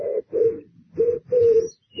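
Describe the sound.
Pigeon cooing in a series of low, hollow coos, each phrase short and evenly spaced with brief pauses between them.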